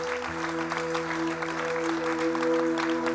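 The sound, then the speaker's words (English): A church audience applauds a family receiving a certificate: dense, steady clapping at an even level for the whole clip, over sustained steady tones underneath. “Church, can we put our hands together and congratulate the family?”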